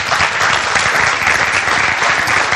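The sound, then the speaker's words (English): Audience applause welcoming guests at a religious gathering: a dense, steady wash of many hands clapping that holds the same loudness from start to finish. “Let's give them a hand.”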